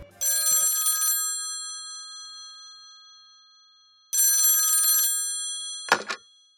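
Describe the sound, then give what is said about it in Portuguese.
A telephone rings with two long, bright, trilling electronic bursts separated by a few seconds of silence, then a brief sharp clatter. “E por isso ele pegou o telefone e ligou para o diretor.”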